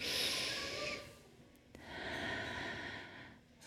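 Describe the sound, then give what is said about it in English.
A deep breath taken to ease tension: a long, airy draw of air, a short lull, then a second long, breathy stretch as the air goes out. It is fairly soft and stands alone without talk. “Now, when I can take a deep breath like this,”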